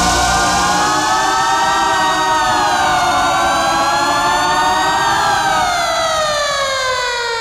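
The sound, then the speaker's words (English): Sirens wail loudly and continuously, their pitch sagging and swelling in slow sweeps before sliding down near the end, with a rumbling low undertone beneath. “down those confounded sirens.”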